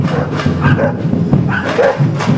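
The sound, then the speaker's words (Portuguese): Dogs barking at a lively street carnival on Rua Padre Justino give out a string of sharp, fairly loud barks and yaps at uneven intervals, one burst following another over a couple of seconds. “Até a cachorrada está no carnaval aqui na rua Padre Justino.”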